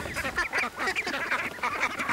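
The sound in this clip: Ducks quack in a dense, continuous chorus as a flock of ten is let onto a pond. Many overlapping calls run without pause at a steady, busy level.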